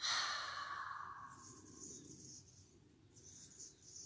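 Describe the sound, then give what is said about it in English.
A deep exhale through the open mouth during a guided breathing exercise: a soft, breathy rush that is strongest at the start and tapers off over several seconds, with no talk. “Begin to invite a deep cleansing breath into the body. Open the mouth, exhale, and release.”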